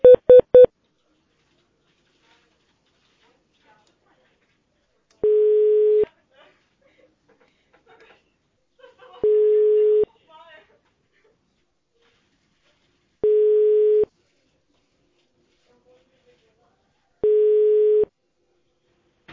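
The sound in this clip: Telephone tones sound as a call is transferred: a few quick beeps at the start, then four steady, mid-pitched ringing tones at regular intervals, with near silence between them.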